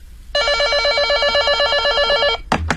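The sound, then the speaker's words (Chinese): A telephone rings with a bright, rapidly warbling electronic trill, one steady unbroken burst of about two seconds, loud and alone. “就在这时，一直在龙山路居民住宅区排查的诸葛平打来了电话。”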